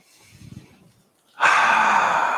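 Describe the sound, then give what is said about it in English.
A deep breath taken slowly: soft, faint breathing at first, then after a short pause a loud, rushing breath lasting about a second that gradually eases off. “Take a breath.”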